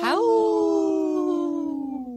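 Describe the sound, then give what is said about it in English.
A wolf howl, one long tonal wail rich in harmonics that climbs quickly at the start and then glides slowly downward, loud and clear throughout. “Howl. That was a good howl.”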